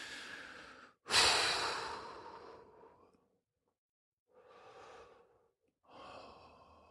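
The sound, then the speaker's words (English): Slow, deep breaths from a person: one loud, drawn-out breath, then a few softer breaths with brief pauses between them, and no talking. “So let's just take a couple breaths.”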